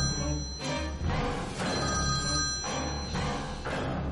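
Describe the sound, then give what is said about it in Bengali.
A mobile phone rings from a trouser pocket. The ringtone plays in repeating bursts about once a second, and the tone stays steady and fairly loud throughout with no voices. “ফোনটা বেজে উঠল।”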